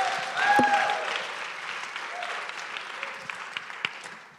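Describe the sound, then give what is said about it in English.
A crowd applauds to welcome a speaker to a church service, the clapping swelling to a peak early on, then easing into a softer, thinner patter with a few scattered louder claps toward the end. “Will you put your hands together and welcome our dear friend, John Cho.”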